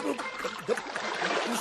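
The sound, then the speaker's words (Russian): People tumble into water in a radio drama, one landing on top of another: splashing, churning water mixed with shrieking, laughing voices, short and busy. “он полетел в воду, и сейчас же на голову ему свалился Дыркин, визжа, смеясь и захлебываясь.”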